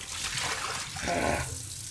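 Water runs steadily from a kitchen tap while dishes are washed and the hot water has run out, giving a continuous soft rushing trickle with no talk.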